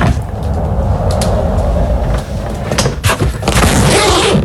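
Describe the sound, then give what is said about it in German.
A rolling suitcase rumbles along with a steady, low, continuous grinding of its wheels, then a few sharper clicks and rustles as it is opened. “Ja, das ist dein Rollkoffer. Du bist mit deinem Koffer entlang gerollt und hast ihn dann aufgemacht.”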